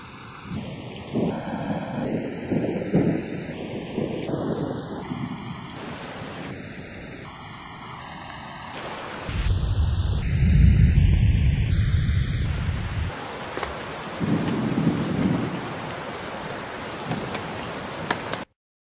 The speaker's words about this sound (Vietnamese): Ngày hôm nay đột nhiên gió nổi bão về, bầu trời trong nháy mắt tối mù.